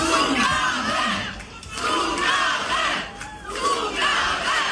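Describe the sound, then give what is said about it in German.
A crowd at a stage show chants in unison for an encore, loud rhythmic shouted calls rising in repeated surges with short dips between them. “Erst das, wovon jeder Künstler träumt, Zugabe, Zugabe, kaum geht sie einen Schritt zurück auf der Bühne, wird's ruhig.”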